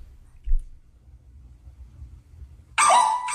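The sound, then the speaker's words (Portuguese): A small dog barks into a microphone: a single sharp, loud bark bursts out near the end after a long stretch of quiet low rumble. “O cachorrinho late, ele volta no microfone e late de novo.”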